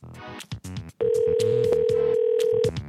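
A telephone tone sounds as one steady, even pitched note held for nearly two seconds, with short tonal bursts before and after it.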